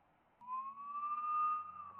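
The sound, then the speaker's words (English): Siren wail from Border Patrol Wagoneer vehicles: a steady, clear tone that starts after a brief quiet moment, climbs slowly in pitch, then eases slightly, fairly faint and alone with no talking. “There's two Wagoneers, and they've got their sirens on, and they're Border Patrol.”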